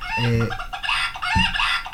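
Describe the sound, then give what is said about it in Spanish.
Rooster crows loudly, its harsh, strongly harmonic call repeating in two bursts across about two seconds, with no talking over it. “A ver, el gallo.”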